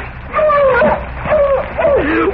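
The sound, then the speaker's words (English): A dog whimpers and yips in a tense dramatic scene, giving a few high, wavering whines that slide up and down in pitch. The cries grow louder after a quiet start and carry over a low rumbling background. “Oh, dog, closer.”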